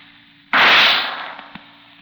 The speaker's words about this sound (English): Oh, as for that shot, here it is.